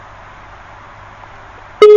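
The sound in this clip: A telephone line tone after a caller to a phone-in talk show is cut off: a loud, steady beep cuts in abruptly at the very end, after quiet line hiss.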